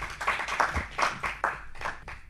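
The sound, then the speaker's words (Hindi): Hands clapping as an audience welcomes a performer onto a stage, a quick, slightly uneven run of sharp claps that rises and falls in loudness with no voices over it. “अब मंच पर आमंत्रित कर रही हूं नव नित्य विनायक को, करतल ध्वनि से हम स्वागत करेंगे।”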